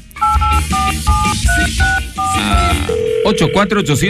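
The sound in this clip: Touch-tone dialing of a phone number: a quick run of about seven two-tone beeps, followed by a steady, low call tone with voices talking over it.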